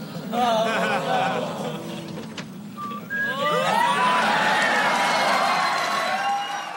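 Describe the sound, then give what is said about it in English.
A sitcom studio audience reacts, starting with a few voices and then swelling into loud cheering, whooping and whistles that carry on to the end. “And as soon as Al says that, the audience reaction tells the tale right there.”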